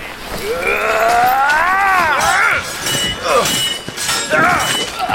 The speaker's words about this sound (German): Und wieder erklang der scharfe Klang von Stahl über dem eisigen Land.